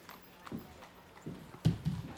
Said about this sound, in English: So you super notice this big black carriage with a big V-E, like in silver letters on the side of it